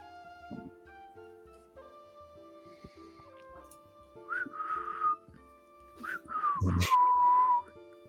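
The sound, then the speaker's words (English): A person whistling in a city at night: two short, clear phrases, the second longer and ending on a gliding pitch, over a faint, steady background hum. “What are you doing? Whistling?”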